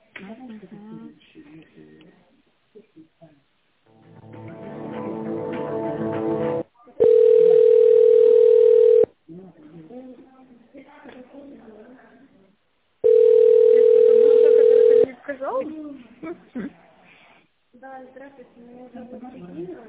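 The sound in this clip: A telephone ringback tone sounds while a call is transferred to a secretary: two long, steady single-pitch tones, each about two seconds, with people talking before, between and after them.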